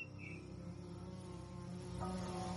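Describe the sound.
Mosquitoes buzzing as they attack, heard as a faint, steady, high insect drone over a low hum that runs unbroken throughout, with no talking.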